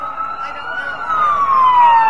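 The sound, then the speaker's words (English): Fire engine sirens sound as the trucks escort a parade, a loud, continuous wail that slowly falls in pitch. “Fire engines from as near as Champaign and as far as Cisna Park, two counties away, form part of the escort.”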